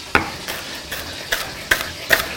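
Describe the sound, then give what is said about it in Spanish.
A knife cutting vegetables, heard as a few sharp, separate cuts at irregular intervals, some crisp and loud, others softer, with no voices. “Vale, voy a empezar a cortar por aquí.”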